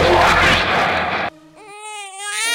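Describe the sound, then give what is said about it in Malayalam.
A feverish baby boy cries loudly: a harsh, strained wail breaks into a higher, sustained tonal crying note. No other voices. “ദേ കണ്ടില്ലേ, ഇന്നലെ മുതൽ മോൻ കരച്ചില് തന്നെ. നല്ല പനിയുണ്ട്.”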